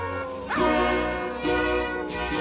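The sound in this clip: A dog howls from inside its cage in three loud, rising cries spaced across the moment. Steady sustained tones continue in the background.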